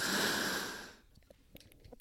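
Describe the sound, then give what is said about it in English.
Someone breathes in through an asthma inhaler with one steady, breathy hiss lasting about a second. The hiss then fades, leaving faint scattered clicks and quiet. “That was me having my inhaler.”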